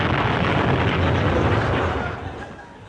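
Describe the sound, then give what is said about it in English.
An explosion sound effect: a loud, broad, rumbling roar that holds for about two seconds, then fades away. “Was that you that just exploded? Yep, that's me all over.”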